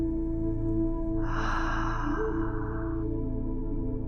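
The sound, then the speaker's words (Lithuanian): Deep breathing in and out during a guided breathing exercise: one long, soft, airy breath lasting about two seconds, heard over a steady low droning tone that continues throughout. “Įkvėpk į krūtinę, į širdį, iškvėpk į dubenį.”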